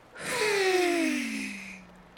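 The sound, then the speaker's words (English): A single slow, audible breath during a guided relaxation breathing exercise: a soft airy rush that swells and fades over about two seconds, with a faint tone that falls in pitch, heard alone. “Slowly breathe in through your nose. Feel your belly moving out. And slowly breathe out through your mouth.”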